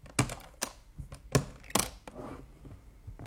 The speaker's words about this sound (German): Aber Sie gestatten doch wohl noch, dass ich diesen Koffer hier öffne.